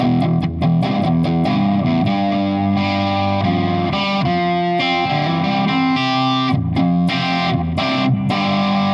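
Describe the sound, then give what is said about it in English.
Electric guitar played through a prototype fuzzy overdrive distortion pedal, an old custom shop overdrive made under the Visual Sound name, with a full bottom end. Loud, sustained distorted chords carry a run of sharp picked attacks, steady throughout with no voices. “it's a kind of a fuzzy distortion, but it cleans up good, and it has a really nice bottom end. With distortion pedals, sometimes your bottom end goes away”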